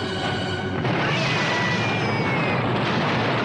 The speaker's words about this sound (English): Francois, Yin and his men flee, then dive for cover as the ammo hut explodes.